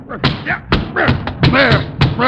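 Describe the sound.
Several heavy thuds from an umbrella being whacked, mistaken for a snake, in an old-time radio drama, landing in an uneven rhythm while a voice grunts and exclaims over them.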